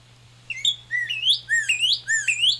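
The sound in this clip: Recorded cardinal song played back: a run of clear, loud, slurred whistled notes repeated in a steady rhythm, each phrase swooping in pitch, with a low steady hum underneath.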